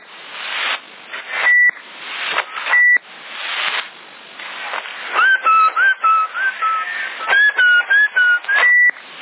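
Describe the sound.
Whistling through a CB radio in Sassari, heard as a narrow, tinny tone over bursts of radio static. Two short steady beeps come first, then a wavering whistled melody rises and dips for several seconds.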